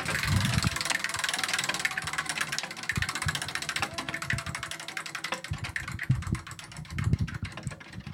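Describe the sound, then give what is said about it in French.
Rapid ratcheting clicks of a game show prize wheel being spun, a dense run of ticks continuing throughout the spin with a few heavier low thumps mixed in. “est-ce que tu veux tourner la roue peut-être?”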